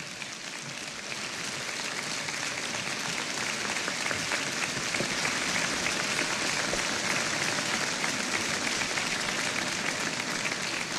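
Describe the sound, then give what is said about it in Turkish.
Dense audience applause for a soloist about to play a three-string classical kemençe concerto with a state symphony orchestra, a steady, even roar of clapping that holds at full strength for the whole clip with no break. “alkışlar Eylül Ravza Madenbaş için.”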